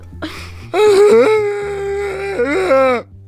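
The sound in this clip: A man's voice imitates someone crying during a sound-imitation game: a short sob, then a long, wavering, whimpering moan that breaks into choppier sobs before stopping abruptly.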